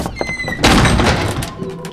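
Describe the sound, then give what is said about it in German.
A solid thunk as an unlocked museum door is opened, landing about a third of the way in and followed by a loud, noisy sustained tail. “wir gehen rein. Die Tür ist nicht abgeschlossen.”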